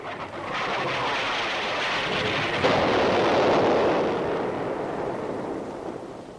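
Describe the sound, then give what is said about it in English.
Artillery shelling rolls in as a deep, sustained rumble of explosions. It swells slightly partway through and then slowly fades, with no clearly separate blasts standing out. “Jim, we're being shelled! We're under attack! Quickly, get down!”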